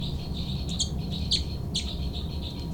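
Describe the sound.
Threat calls from two birds fighting: a few harsh, rasping squawks cut through repeated high chirps, over a constant background hiss.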